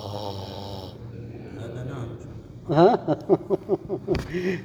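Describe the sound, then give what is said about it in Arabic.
A man imitates snoring while preaching about dozing off while sitting comfortably during a sermon. After a stretch of his speech comes a series of short, rasping snorts in a steady rhythm. “الخطب بخطب وانت جالس هكذا متمكن وصاحبنا قد بيشخر”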